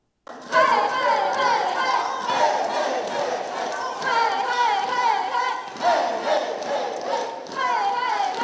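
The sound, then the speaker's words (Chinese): Cheerleading squad chanting and shouting together during practice for an international university basketball invitational, a loud, sustained wall of group voices starting abruptly and surging in rhythmic bursts. “我们画面中来看到高新三区的佛光啦啦队加紧脚步投入练习，希望呢透过有活力的演出为选手们加油打气。”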